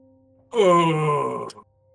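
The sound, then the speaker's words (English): A voice imitates a deep, hearty, bassy moan: one sustained groan lasting about a second, holding steady before cutting off, heard alone over a faint low hum. “it sounds like a moan, like a very hearty,”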